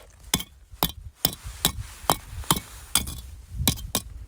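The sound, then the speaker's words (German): Lava rocks from a lava field struck against each other, producing about ten sharp, hollow knocks with a ceramic, clay-like ring rather than a dense stone clack. The knocks come at uneven intervals, two of them in quick succession near the end. “Und wenn man die so ein bisschen aneinander haut, finde ich, klingen die fast, als wären die aus Ton. Sehen aus wie Steine, klingen aber so.”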